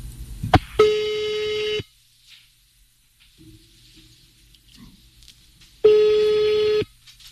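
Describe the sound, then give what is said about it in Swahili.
A telephone call to a radio listener ringing out, with a few clicks at the start, then two buzzing ring tones about a second long, separated by a roughly four-second quiet gap. “Tunakupigia simu, kwa hivyo naomba Bi Cheruto tafadhali, shika simu yetu kutoka Radio Jambo ili tuone hii kesi yako tunaishughulikia namna gani.”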